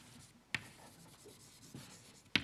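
Someone writes on a board during a lesson. The faint, soft scratching is broken by three sharp taps as the marker strikes the surface.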